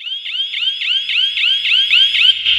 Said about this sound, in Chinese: 咱们现在听见的就是咱们的余震监测仪的报警声。